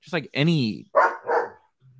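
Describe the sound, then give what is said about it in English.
Excited dogs bark and yelp during a conversation, giving a few loud, strongly tonal barks close together before the sound falls away to a faint low hum. “dogs are getting, this is an exciting conversation for the dogs.”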